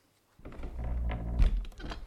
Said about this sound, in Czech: Zavři za sebou dveře.